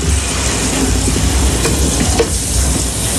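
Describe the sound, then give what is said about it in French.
Loud, steady sizzling of poultry giblets browning in a hot pan for a chicken stock, a dense continuous crackle with small pops running throughout, no voices. “Je vais commencer par faire un petit fond de volaille. Voilà, alors je vais prendre les abats que je vais faire revenir.”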